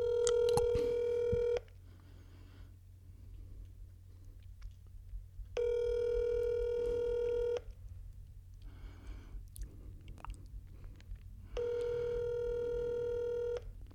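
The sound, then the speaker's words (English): Ringback tones of an outgoing phone call: three long, steady, buzzy tones of equal loudness, each lasting about two seconds and separated by roughly four-second gaps, over a low background hum. “Calling Shane next.”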